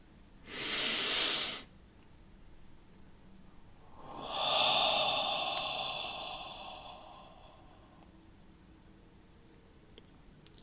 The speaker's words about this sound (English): let's take a real nice deep breath together